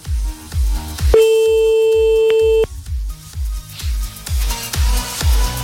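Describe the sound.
A telephone ringing tone sounds while calling someone, one steady electronic ring about a second and a half long laid over a rhythmic music bed with thumping beats.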